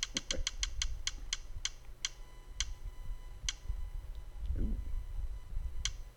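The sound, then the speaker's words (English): Clicking of a spinning prize wheel spinner: many sharp ticks start in a rapid run and then slow steadily, the gaps between them growing longer until only a last few isolated clicks remain, over a low murmur of background noise. “Get that spinner going. He's spinning the spinner.”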